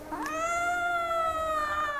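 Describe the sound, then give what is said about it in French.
A cat meows while someone holds it with its back end wedged between their arms. It gives one long, loud, drawn-out wail that rises at the start and then holds a steady, strained tone. “Alors, regardez comme je tiens le chat.”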